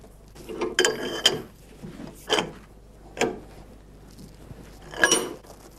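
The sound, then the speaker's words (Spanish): Ratcheting mechanical clanks come from a press being tightened on hot steel pieces to straighten them as they cool. About five sharp clicks land at irregular intervals over a low, steady hum. “Ahora estamos terminando de apretar las astas hasta que se enfríen, para que se queden derechas.”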